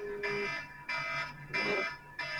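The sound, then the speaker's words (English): A phone alarm going off, sounding as bright electronic tone bursts in a steady on-off pattern, moderately loud and repeating with short gaps and no talk. “Is that a fire alarm? No. That was my phone alarm, but you know what? For once, I'm glad it went off.”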